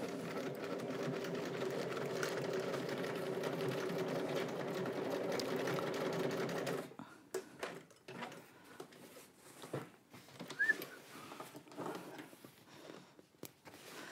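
A sewing machine stitches through the extra layers of a bag's pocket flap: a steady motor whir for about seven seconds, then it stops and gives way to scattered faint clicks and knocks.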